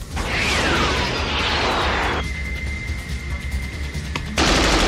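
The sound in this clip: Gunfire crackles through a film scene of an aerial fight between jet planes. Dense rapid bursts sit within a loud, continuous roar, and a sustained high tone runs through the middle part.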